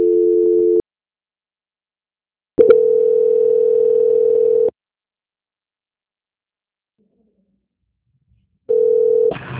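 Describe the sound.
Steady, buzzing telephone line tone heard during a call transfer, sounding in three separate stretches with silent gaps between them, loud and alone with no voices.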